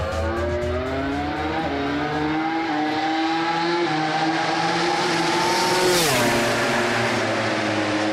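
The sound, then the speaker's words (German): A modified KTM MotoGP two-seater race motorcycle with over 300 hp at full throttle on a racing circuit, its loud, continuous engine howl climbing steadily in pitch, then dipping sharply before rising again near the end. “er ist mit einer umgebauten KTM MotoGP-Rennmaschine bei Jonas Folger mitgefahren. Eine Doppelsitzermaschine, über 300 PS und das Vollgas am Ring.”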